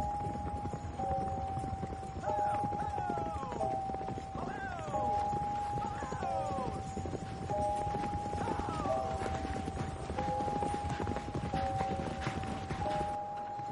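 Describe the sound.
Hooves of the team pulling a horse-drawn stagecoach up a slope toward a valley ringed by rocky mountains, in a Western: a steady, continuous clip-clop with rattling thuds, under a sustained musical tone.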